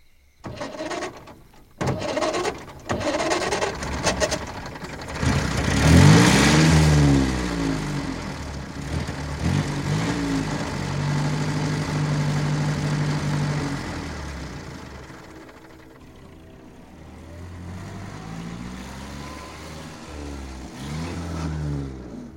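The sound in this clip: A car engine clatters and catches, revs up into a strong, steady drone, then fades as the vehicle drives off toward a monastery.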